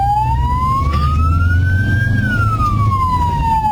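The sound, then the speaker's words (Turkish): An ambulance siren wails as it clears a path through traffic. Its steady tone climbs slowly, holds at the top, then falls again over a constant low rumble of vehicles. “Zamanla yarışan ambulans şoförü sirenlerini açarak yol istedi.”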